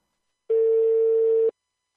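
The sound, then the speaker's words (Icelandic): Ringing tone of an outgoing telephone call: a single steady mid-pitched beep lasting about one second, clear and alone. “ringja í mann sem að er framkvæmdastjóri Káa, Sævar Pétursson”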